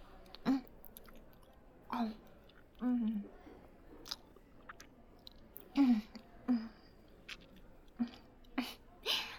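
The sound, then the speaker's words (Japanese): Someone chewing while eating a meal: a series of soft, irregular bite and mouth sounds, quiet and separated by short pauses. “じゃあ食べながら話そっか。いただきます。”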